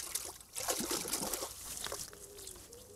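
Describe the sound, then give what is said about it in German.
Running water trickles and splashes as plant roots are rinsed before the plant goes into winter storage, a steady hissing patter that swells after the first half-second and then continues evenly. “Ich wasche es auch gleich nochmal aus. Bevor es ins Winterlager geht, wird nochmal geduscht.”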